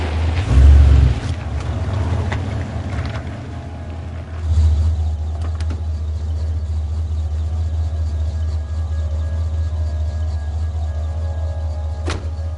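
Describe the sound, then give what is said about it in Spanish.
Low, steady engine rumble of a taxi pulling up and stopping in front of a house at night in thick fog, swelling louder near the start and again briefly before holding at a constant level. “Un taxi se detiene ante su casa envuelta en una espesa niebla.”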